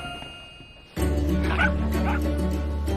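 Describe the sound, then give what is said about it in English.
Several dogs bark in a yard, a burst of yips and woofs that begins abruptly after a quiet opening and carries on steadily over a low background hum. “Several dogs romp around the yard, some with people and some without.”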